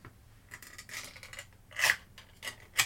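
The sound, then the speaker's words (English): A knife slices through a block of turkey Spam into thin slices, making faint rasping scrapes in several short bursts, with the sharpest ones near the end. “This is turkey Spam. And I'm going to, that was an unappetizing noise. And I'm going to slice it into 12 thin slices.”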